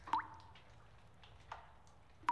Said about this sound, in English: he takes his dagger and puts a small hole into the bucket of water he brought down, so it just starts to drip, drip, drip, drip, drip, drip of water.